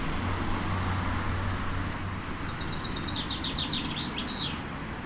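Bird song from high in a tall tree holding a nest: a series of quick, high chirps in the second half, fairly faint over a steady roar of nearby road traffic and a low hum early on.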